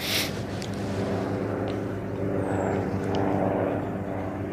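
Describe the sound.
Aircraft engine drone overhead at a cemetery: a steady, low, rumbling hum with even loudness from start to finish, alone with no voices.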